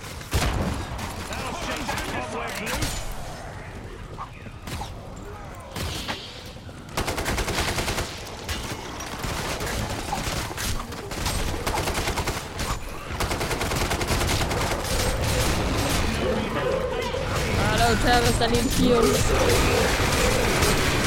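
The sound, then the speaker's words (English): Rapid gunfire fills a video game shootout in which grenades are being thrown. Sustained bursts of shots run for about twenty seconds with brief dips, and players' voices are mixed in with the fighting. “We got trouble. Man, throwing grenades.”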